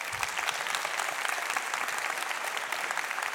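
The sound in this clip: Audience applause welcoming a new speaker to the stage at an event, a dense, even wash of many hands clapping that stays steady and loud throughout.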